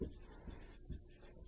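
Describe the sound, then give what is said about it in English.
Writing a formula by hand during a math lecture on compound interest, heard as a few soft, scratchy strokes with low dull thumps, brief and fairly quiet. “So I put 2 here for now for semi-annually, and let me write that up here.”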